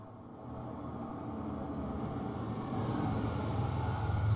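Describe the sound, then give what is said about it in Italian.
The engine of a 1986 Fiat Uno with 45 horsepower runs as a steady, low drone that gradually grows a little louder over a few seconds, alone with no voices. “È proprio il modello che piace a te. Fiat Uno, 45 cavalli dell'86. Oh, modelli così non ne fanno più. Senti che roba.”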